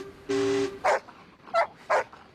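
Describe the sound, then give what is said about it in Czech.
Small dog barking: a sustained whining note, then three sharp, fairly loud barks spaced apart. “A co umí ten váš pejsek? Myslím, kromě štěkání.”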